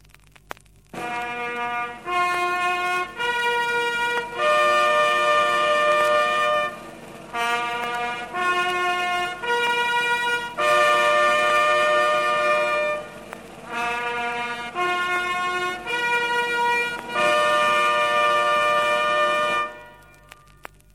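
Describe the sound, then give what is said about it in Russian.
A Soviet pioneer bugle sounding the call "Attention! Everyone listen!": a clear brass fanfare of sustained notes and quick repeated tones in several phrases, played alone. “Сигналы. Сигнал «Внимание! Слушайте все!»”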